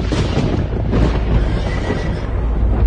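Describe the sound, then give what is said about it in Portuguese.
Horses neighing amid a dense, loud rumbling roar that holds steady throughout, from a scene of a hillside covered with horses and chariots of fire. “e viu que ao redor de Eliseu o morro estava coberto de cavalos e carros de fogo.”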